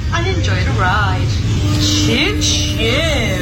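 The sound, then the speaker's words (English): A ride announcer on an Alton Towers ride imitates a train with a playful choo-choo, two breathy hissing bursts of voice. Steady ride noise and other talking run underneath. “I really want to go to Alton Tower just to go on this ride now and hear this choo-choo. Let's hear it again.”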